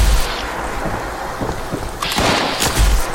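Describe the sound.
Gunshots from a gun in a video game: a few sharp, muffled blasts with a rumbling low end, loud and without talk.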